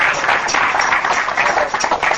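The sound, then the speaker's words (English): A church audience claps hands in praise, a loud, dense, uneven patter of many hands that swells and dips slightly throughout. “Give the Lord a hand clap for that.”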